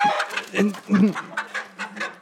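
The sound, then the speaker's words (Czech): Backyard hens kept at a house in town cluck in short, clipped bursts, a quick run of several throaty calls at a fairly even level with brief gaps between them. “No, my sice bydlíme ve městě, ale chováme i slepice, no.”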